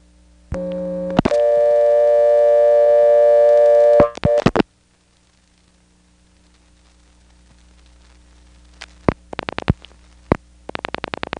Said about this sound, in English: We'll dial 1 plus a distant area code and 411, and 4 more digits, and we'll again end up on the Greensboro 4A's recording.